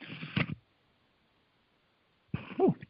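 Two coughing bursts from a person with something stuck in the throat: a short harsh burst, a silent pause, then a second rougher, throaty cough.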